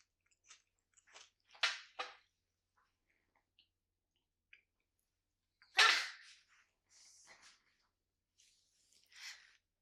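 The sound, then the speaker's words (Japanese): A person chewing a bar snack: scattered crisp crunches and mouth sounds in short, faint bursts separated by pauses, with no talking. “よかったら食べてください。いただきます。”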